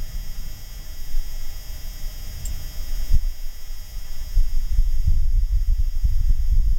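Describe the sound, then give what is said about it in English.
Faint electronic hum from the Perseverance rover on Mars, a thin steady tone over low, rumbling Martian surface wind that swells louder in the second half. “you're going to hear, like, a faint electronic sound. That's the sound of the actual rover. And then you're going to hear what sounds like wind in the background, which is probably wind from the surface of Mars 132 million miles away.”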